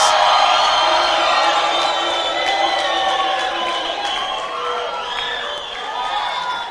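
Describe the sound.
Audience at a camp gathering cheering and applauding, a dense wash of claps and shouting voices that tapers slightly toward the end.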